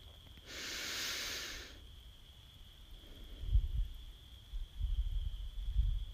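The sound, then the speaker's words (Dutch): One long, deep breath in during a guided meditation: a soft, steady airy hiss lasting about a second. It is followed by quiet, low rustling and near silence. “Bij elke inademing adem je de voeding die de aarde te bieden heeft in.”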